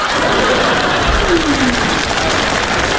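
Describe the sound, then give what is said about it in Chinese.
Audience applause for a traditional Chinese comic rhythmic-storytelling performance, heard as a steady, dense patter of many hands clapping that keeps an even level throughout. “谢谢大家，谢谢大家对我一个人的掌声。”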